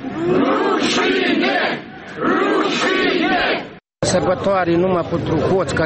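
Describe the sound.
A protest crowd in Moldova shouts loudly over a corruption grievance, many voices chanting and yelling together. A brief moment of silence cuts in before the shouting resumes.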